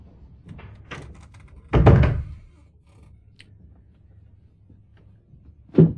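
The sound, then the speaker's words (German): A door being closed: faint shuffling and soft knocks lead into one heavy, solid thud, followed by quiet and a short sharp knock at the end. “Schließen Sie die Tür.”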